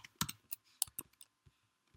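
Keys click on a computer keyboard as someone types code. The sound is a quick, irregular run of sharp little taps, soft and heard alone.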